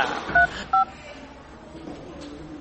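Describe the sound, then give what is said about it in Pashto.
Telephone keypad tones as a phone call is placed: two short, steady electronic beeps a moment apart, standing out over a faint low hiss. “نو ته صبر، چې زه فاروق ته زنګ ووهم چې د طیبې د ناکامۍ خبرې ترې واورم.”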